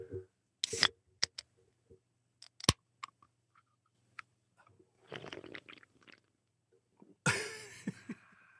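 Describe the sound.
A can of Monster energy drink is handled for ASMR with scattered quiet taps and clicks, a crackling fizz, then a sharp burst of hissing near the end.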